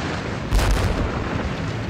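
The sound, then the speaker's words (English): Explosions in a field from archive war footage: a constant heavy, hissing roar with a deep boom bursting out partway through, then the dense noise rumbling on. “Explosions in a field. A wall collapsing”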